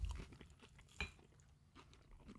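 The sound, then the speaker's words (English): Chewing on a sweet pickle dipped in ketchup: faint, moist, crunchy bites that come in a few short bursts, with no talk over them. “I can totally hear you chewing.”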